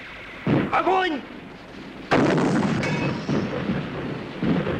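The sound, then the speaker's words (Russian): Heavy booms of an artillery gun firing, two strong blasts with a rumbling tail, and a shouting voice between them. “Прицел 18, левее 012. Огонь! Огонь! С каждым выстрелом хватается за голову.”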